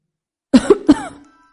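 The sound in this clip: An old woman coughs twice, two short, raspy, voiced bursts close together, the second trailing off into a fading wheeze.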